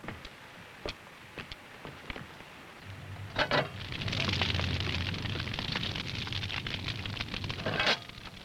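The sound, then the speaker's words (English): Fire of added sticks crackles in a heated bread oven: a few sharp pops, then a steady, loud crackling roar over a low rumble. “I'm going to bake some bread. I've already heated the oven, and I've kneaded the dough. Now, you get over here and put these sticks on the fire.”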